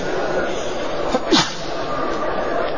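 One brief sneeze bursts out over a steady background hiss. It is short and moderately loud.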